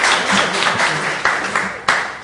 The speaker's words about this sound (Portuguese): só queria uma salva de palmas também para o nosso ex-vereador Tatu Pena, que se encontra na plateia